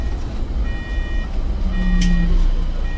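Electric trolleybus starting off in battery driving mode after its pantographs are lowered: repeated high electronic beeps over a steady low vehicle rumble, with a brief low hum midway and one short sharp high sound.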